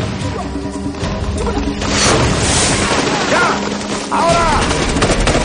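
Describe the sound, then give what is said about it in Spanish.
Loud gunfire in a jungle battle from a 2003 war film, Tears of the Sun, as soldiers shoot at enemy positions from behind fallen logs: many sharp shots and crashing impacts follow one another. “Los militares comienzan a disparar contra las posiciones enemigas, resguardados tras los troncos caídos.”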